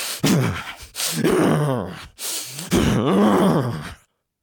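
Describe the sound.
A person imitates stressed breathing: a few heavy, strained breaths with a voiced, groaning edge, each lasting about a second, separated by short pauses, and the last ending abruptly in silence.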